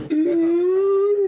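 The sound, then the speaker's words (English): A voice imitates a giant crocodile man sobbing during a role-play game, producing one loud, sustained, wavering wail held for about a second on its own. “I cannot make the sound that a giant crocodile man would make sobbing. You can't even try.”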